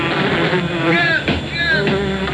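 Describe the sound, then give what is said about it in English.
Flying insects buzz in a loud, steady, wavering drone, with a few higher whining passes sweeping through. “Are you being invaded by unidentified flying insects?”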